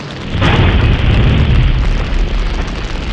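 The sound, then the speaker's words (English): Scotch bottles bursting in a fire: a loud, low, rumbling roar that swells within the first half second and then holds steady and dense, with a muffled booming body. “Oh my god, I think these scotch bottles are going to explode!”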